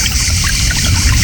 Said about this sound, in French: tout près du murmure de la fontaine.